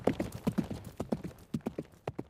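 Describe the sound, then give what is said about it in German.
Hooves clip-clop in a quick, steady galloping rhythm as a faithful horse carries its rider toward a forest. Many sharp, fairly quiet hoofbeats repeat evenly with no voices. “Sogleich schwang er sich auf sein treues Pferd und galoppierte zum Drachenwald.”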